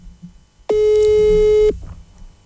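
A telephone tone sounds after a call is placed: a single loud, steady electronic tone of about a second, starting and stopping abruptly, with only faint background before and after.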